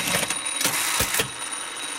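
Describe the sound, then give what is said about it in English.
A sewing machine stitching the button fly on a pair of jeans in a workshop, a few bursts of clattering mechanical noise over a steady high whine, settling into a quieter run. “And I'm dropping by his workshop just as he's sewing the button fly on my jeans.”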